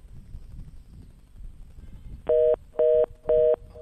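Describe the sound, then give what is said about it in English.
A telephone being dialed sounds as three identical, evenly spaced electronic beeps that follow a stretch of low background wind rumble. “Let's dial again. I'm not sure what's going on. I'd love to get through on this one.”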